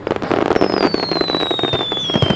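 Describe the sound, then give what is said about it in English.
Fireworks exploding at a summer fireworks festival in Tokyo: a dense, continuous crackle of bursts and pops, with a high whistling tone that slowly falls in pitch above them. “Tokyo's fireworks festivals officially started in the Edo era, around 300 years ago, to honor the spirits of ancestors and ward off bad fortune.”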